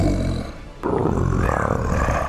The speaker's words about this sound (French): Tu vois les jambes du colosse peut-être là, se retirer un peu plus à l'intérieur de la cabine dans un rugissement.